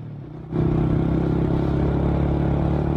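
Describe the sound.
A vehicle engine rumbles as it pulls up to park under a tree at the Tindivanam agricultural science centre. A quieter start swells suddenly into a loud, steady, low drone that holds evenly to the end.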